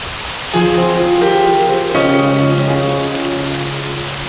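Rain falls as a steady, even hiss that runs through the whole stretch, while sustained musical chords enter and change partway through and carry on over it.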